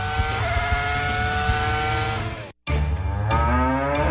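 A cow mooing in a long, low, drawn-out moo with steady tone, then a brief break before a second moo carries on to the end.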